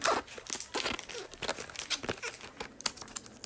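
Plastic wrapping is peeled off the box of a new streaming device. It makes many quick crinkling and tearing bursts, fairly faint, in an uneven rhythm.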